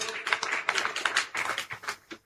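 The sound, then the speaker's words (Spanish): A church audience claps during a service, with irregular bursts of hand claps that thin out and stop near the end. “Fuerza, aplausos para Dios.”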